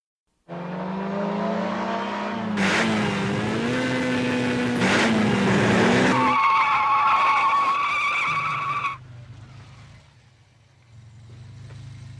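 Tires squeal loudly as a car corners fast after camber, caster and tire-pressure adjustments. A sustained, wavering shriek rides over engine noise, shifts to a higher tone partway through, then drops away to a quieter engine rumble.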